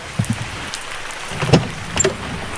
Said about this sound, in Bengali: কয়েকবার গাড়ি স্টার্ট করার চেষ্টা করে ব্যর্থ হয়ে বৃষ্টি মাথায় করেই গাড়ি থেকে নামলো রাহুল।